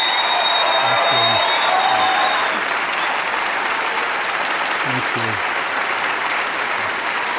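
Audience applause welcoming Senator Gaylord Nelson to the stage at E-Town: steady, dense clapping that lasts the whole stretch, slightly fuller at first and then holding at an even level.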